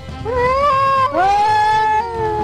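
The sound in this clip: A cat meowing in two long, loud, drawn-out meows. Each one rises in pitch as it begins and then holds a clear, steady tone, with the second following right after the first.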